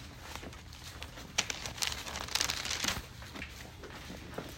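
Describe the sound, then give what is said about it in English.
Thin Bible pages flipped in a search for 1 Corinthians during a Bible study. The soft papery flicks and rustles come in a quick, irregular patter, busiest in the middle and fairly faint. “All right, flip over to 1 Corinthians 15.”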